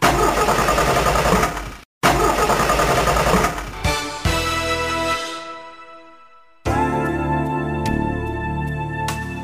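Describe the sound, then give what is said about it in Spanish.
A car engine that stalls suddenly and needs new Prestolita spark plugs: loud, rough engine roar with a brief cutout near two seconds, then a humming whine that winds down and fades before a steady tone starts. “Caballero, ¿se le para de repente? ¿Se le derrama el líquido? Esto es señal de que su coche necesita bujías Prestolita.”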